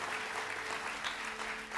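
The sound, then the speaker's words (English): Church audience clapping hands during a worship service, a dense, steady wash of applause that carries evenly from start to finish without breaks. “Give the Lord a hand clap tonight.”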